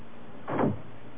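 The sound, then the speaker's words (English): A door being closed gives a single short, soft thud in the middle of a quiet stretch, with nothing else around it. “Close the door”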